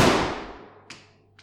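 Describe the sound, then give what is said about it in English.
Gunshot sound effect in a radio drama: a sharp, loud crack that rings off over about half a second, followed by two faint, short clicks. “I'm shot. That bullet was meant for me.”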